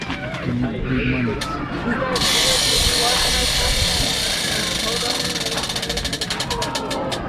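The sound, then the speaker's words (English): A prize wheel spun hard during a game show bonus round, ticking with many rapid clicks that grow more distinct toward the end, under voices and busy background noise. “We're gonna give you a spin on the wheel. Woo, so, yeah. On the wheel. Top five. Alright, let's go. Spin that thing hard.”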